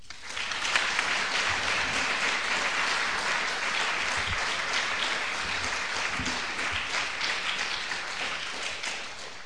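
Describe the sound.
A lecture audience applauds to welcome a speaker, with dense, steady clapping throughout that eases off slightly near the end.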